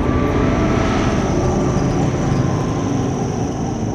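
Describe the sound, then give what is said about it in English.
A steady engine drone from an arrowhead-shaped aircraft flying overhead above a mansion stays loud and continuous, holding a constant tone throughout with no voices. “An aircraft flies above. Katniss turns to see it.”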